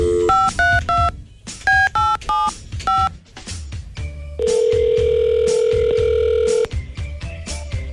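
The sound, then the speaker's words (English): Telephone keypad dialing of an outgoing call: two quick runs of loud DTMF beeps separated by short pauses, then a long, steady, mid-pitched tone held for about two seconds before the line goes quieter. “We made an outgoing phone call to you.”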